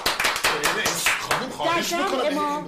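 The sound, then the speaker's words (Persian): An audience applauds at an evening event with a burst of brisk clapping. A voice then begins talking. “در ابتدای برنامه ازتون خواهش میکنم که به افتخار خودتون و خانواده های محترمتون یه دست گرم حسابی بزنید.”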